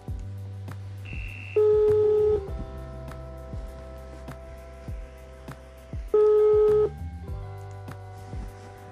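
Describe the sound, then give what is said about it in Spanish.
A telephone call comes in, marked by a run of electronic tones: steady held beeps and pulses, with two louder bursts of higher tone, the pattern repeating about halfway through. “Muy bien, aquí recibimos nuestra primera llamada.”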